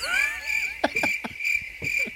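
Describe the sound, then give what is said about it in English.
Crickets chirping as a sound effect: a steady, high, shrill trill runs throughout, broken by a few short, louder bursts. “I'm going to put crickets over that just so you know.”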